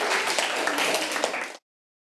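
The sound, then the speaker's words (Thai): A classroom of children claps for a classmate, a dense burst of applause that holds steady for about a second and a half, then stops abruptly. “ปรบมือให้เพื่อนครับเด็กๆ”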